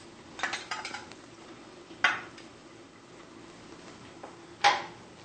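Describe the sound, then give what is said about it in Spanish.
A pot of plantains is put on to boil with metallic kitchen clatter: first a short cluster of rattling knocks, then two separate sharp clanks spaced well apart, with quiet between. “Mientras tanto, voy a poner estos plátanos a hervir.”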